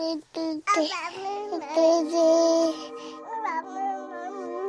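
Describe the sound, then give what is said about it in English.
A baby babbles in short, high-pitched voiced bursts, its syllables wavering up and down in pitch and separated by brief pauses. “Have you ever wondered what your baby's trying to tell you when she babbles?”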